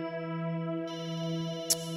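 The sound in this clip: A telephone rings on an outgoing call: a steady, buzzy electronic tone held throughout that turns brighter partway through, with a brief click near the end.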